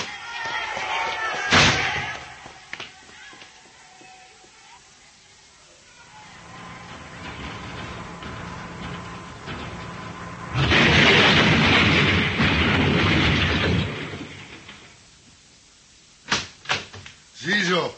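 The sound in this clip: Dynamite explodes at a lift: a sharp early bang, then a loud, rumbling blast lasting a few seconds, followed by a few short thuds, with voices talking in between.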